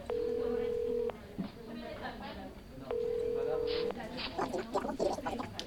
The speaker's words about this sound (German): Lass mich jetzt ganz kurz einen Anruf machen. Einen Anruf.